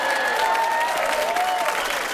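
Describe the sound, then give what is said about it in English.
Hundreds of onlookers applaud as two people reach the shore safely after a rescue. The clapping is dense and steady, with the same loudness throughout the short burst. “Rosie and Adrian reached land safely, and all the people applauded.”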